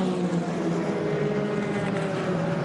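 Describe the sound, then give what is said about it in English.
Engine roar from the race-leading BMW race car as it drives through Dunlop Curve, a continuous, fairly quiet droning hum with steady tonal layers and no clear build or fade. “And the race-leading BMW is now heading through Dunlop Curve.”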